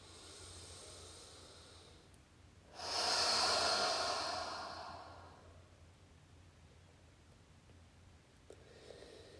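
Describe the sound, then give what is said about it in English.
A deep, slow breath during a slow-flow yoga meditation: one long, airy exhalation swells for a few seconds and fades, set against quiet, softer breathing before and after. “Take a breath in. Take a breath out. Take one more like that.”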